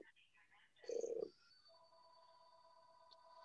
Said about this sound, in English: I unplugged the phones, but not enough. There's more phones in this house than you could shake a stick at. More phones? Phones, yeah. Oh, your phones are ringing?